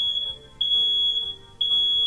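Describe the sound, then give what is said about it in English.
A combined fire and carbon monoxide alarm sounds a piercing, high steady tone, broken by brief gaps about once a second, loud and alone. “Got a fire? Forget about it. This alarm right here”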